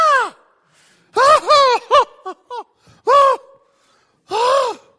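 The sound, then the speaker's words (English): Voice imitating someone squalling, crying and unable to breathe: a string of strained, gasping wails that rise and fall in pitch, broken by short choked catches and pauses. “The word here, weep, means he began to squall. Don't know what squalling is? That's when somebody's just like,”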